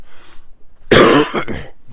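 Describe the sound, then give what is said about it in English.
A person's cough: one loud, harsh burst with a weaker follow-on rasp, preceded by a few quiet moments. “excuse me, that was gross. There's no cough button”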